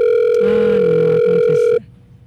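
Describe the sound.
A telephone rings out unanswered, a steady electronic ring tone holding for nearly two seconds before stopping abruptly.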